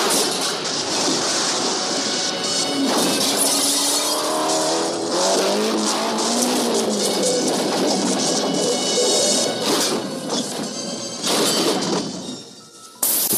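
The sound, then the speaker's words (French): An Alfa Romeo Giulietta Sprint speeds along a country road in the early morning, its engine roaring loud and continuous, with revving tones that climb and dip, then a brief drop in level near the end. “Une Giulietta Sprint lancée à vive allure sur une route de campagne au petit matin.”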